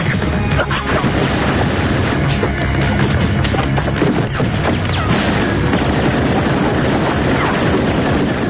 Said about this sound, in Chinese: 为了斩草除根，黑手党分子竟然向鲍勃家中投掷手雷。